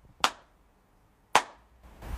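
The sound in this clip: Two sharp ritual hand claps during a Shinto shrine prayer, about a second apart. Each is a crisp, loud smack that stands alone against near silence.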